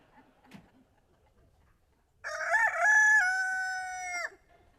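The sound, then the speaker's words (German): A single rooster crow during a stage play: a long, loud, harmonic call lasting about two seconds with a stepped, wavering pitch, preceded by faint low rustles and a brief soft knock. “Also, wenn sich der Hahn nicht um eine Stunde verkräht hat, dann geht's schon auf den Tag los.”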